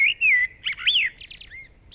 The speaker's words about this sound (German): Das ist eine Amsel.